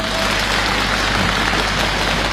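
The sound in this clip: An audience applauds at a live comedic crosstalk performance. The clapping is dense, even and loud, a continuous wash of many hands with no break or voices.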